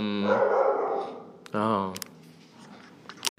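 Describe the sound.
A dog barks in two loud, drawn-out, tonal bursts, followed by quieter scuffling and a few sharp clicks.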